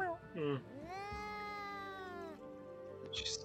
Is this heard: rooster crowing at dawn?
no